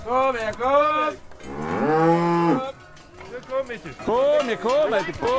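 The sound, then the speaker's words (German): Harz Red Highland cattle mooing at a cattle festival in the Harz: several long, loud, lowing calls in a row, one drawn out longer than the others, with short gaps between them. “Das ist der Sound vom Harzer Rotes Höhenvieh.”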